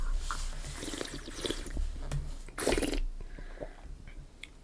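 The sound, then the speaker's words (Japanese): Someone slurping a chocolate-tasting drink while drawing in air, a brief airy slurp in the middle amid faint wet mouth and liquid sounds. “ちょっと空気含まして飲んでみようかなと思うよ。”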